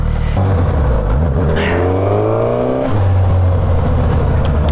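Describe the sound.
A fast motorcycle's engine revving: a loud, continuous engine drone climbs steadily in pitch for a couple of seconds, then drops abruptly and settles back to a steady idle-like hum.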